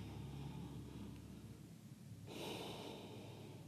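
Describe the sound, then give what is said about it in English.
A soft, airy inhale of breath during a guided breathing exercise, faint and hissing. It begins past the midpoint and holds to the end over quiet background noise. “So listen to your unique sound as you inhale.”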